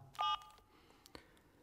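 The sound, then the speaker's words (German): Telephone keypad dialing for a call to the police: one short, loud burst of layered dial tones, then a couple of faint clicks over quiet background. “Ich werde die Polizei anrufen und ankündigen, dass Sie morgen ins Präsidium kommen.”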